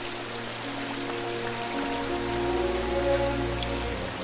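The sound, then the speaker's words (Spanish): Rain falls on the ground in a steady, continuous hiss that grows slightly louder partway through. “Dejan a Sutemaru tendido en el suelo bajo la lluvia.”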